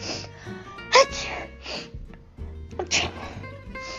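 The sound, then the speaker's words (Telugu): Sneezing set off by dust while an old veena is being taken down. The sneezes come as short, fairly faint bursts with breathy sounds between them. “అదేమి తుమ్మో చస్తున్నా”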